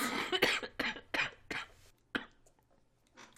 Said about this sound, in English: I did not have a cough until about 15 minutes before we started recording.